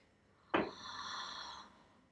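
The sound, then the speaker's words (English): A single deep breath drawn during a guided relaxation session: a sharp airy onset, then a steady soft hiss lasting about a second before it fades, with no other sound. “Nice deep breath, that's it.”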